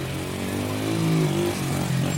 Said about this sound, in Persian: ترک موتور میشینه و راه میفتن.